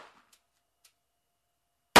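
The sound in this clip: A revolver fires a single sharp, loud shot at a self-defense target of a masked man. It comes at the very end after near silence broken only by a couple of faint clicks.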